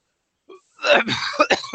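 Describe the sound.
A voice imitates a creature with a glob in its throat waking from slumber: a faint short grunt, then a rough, gurgling, throat-clearing rasp in several choppy bursts.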